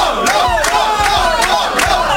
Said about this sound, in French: Marvin, excuse-moi pour ce boucan là, je suis un peu perturbé là, pour une fois que je suis applaudi.